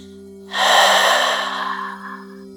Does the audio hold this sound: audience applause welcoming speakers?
no

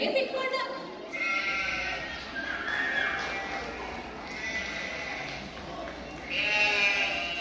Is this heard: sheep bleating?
yes

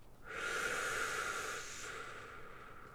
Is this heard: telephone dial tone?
no

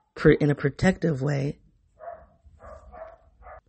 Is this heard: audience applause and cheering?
no

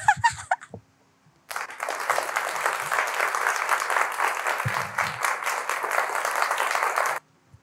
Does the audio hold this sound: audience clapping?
yes

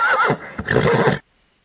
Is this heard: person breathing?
no

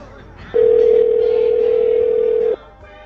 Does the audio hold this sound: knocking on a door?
no

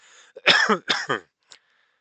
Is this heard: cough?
yes

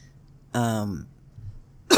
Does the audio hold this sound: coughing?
yes

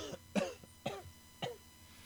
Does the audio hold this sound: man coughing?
yes

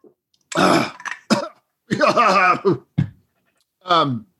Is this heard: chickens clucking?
no

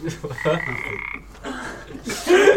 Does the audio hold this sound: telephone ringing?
no

